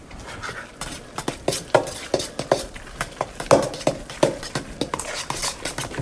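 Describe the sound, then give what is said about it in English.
Ground turkey being mixed with spices, herbs, egg and cheese for meatballs, heard as many irregular squelching strokes and light clicks at a moderate level, with no talking. “I can get a better distribution of the spices and the herbs and the egg and the cheese all mixed in if I put in the turkey by itself first. So I'm going to do that next.”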